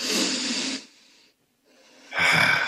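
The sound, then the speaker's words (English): A deep breath taken in and let out as a breath-control exercise: two airy, hissing rushes of breath separated by a brief quiet pause, soft and without any talk. “So do it with me. Come on, let's take a deep breath.”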